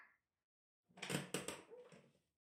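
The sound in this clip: A door being opened, heard as a quiet rattling clatter of the latch and moving door that lasts about a second, after a brief faint sound at the start.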